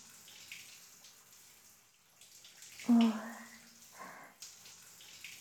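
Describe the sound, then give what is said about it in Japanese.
Warm water runs and splashes while a stylist rinses a client's hair at a hair salon: a soft, steady wash of water with intermittent splashes and one brief louder gush midway. “きれいにできましたので、このままお湯で流していきますね。”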